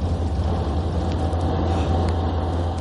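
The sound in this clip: Steady low drone of a car engine as the car rolls backwards, accidentally stuck in reverse gear, an even continuous hum without clear changes in loudness.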